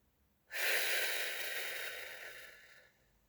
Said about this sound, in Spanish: Inhala bien hondo con el abdomen, retené y vamos a exhalar.